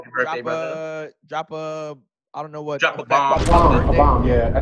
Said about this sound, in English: Drop a bomb. That's a bomb.